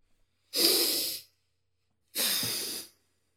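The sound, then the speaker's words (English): A person takes a big breath: two long, airy breath sounds, each lasting under a second, separated by a pause of about a second, heard alone in quiet surroundings. “I took a big breath because now I need to rethink what the fuck I'm doing here.”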